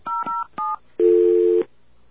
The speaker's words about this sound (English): It could be that our touch tones are a bit screwy.